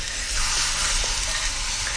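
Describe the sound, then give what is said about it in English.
Steady, loud sizzling from food coated in boiling sugar on a hot grill, just flipped onto its cut side, forming one continuous hiss with no pauses. “Okay, one more flip so we get a nice grill mark on the cut side.”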